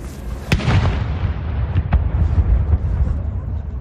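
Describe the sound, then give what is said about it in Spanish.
A 41-gun cannon salute fired by a royal regiment in London's Green Park, near Buckingham Palace, booms out as a few deep, heavy blasts over a continuous low rumble. “Esta mañana un regimiento real ha disparado 41 salvas de cañón en el parque londinense de Green Park, muy próximo al Palacio de Buckingham.”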